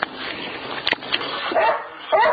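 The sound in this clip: A border collie barks and yips by a pond, giving a few short, sharp bursts with brief gaps between them over a low background.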